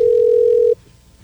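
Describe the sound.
Telephone dial tone heard while a number is being dialed: one steady, loud, even tone holds for under a second, then cuts off abruptly, leaving only faint background hum.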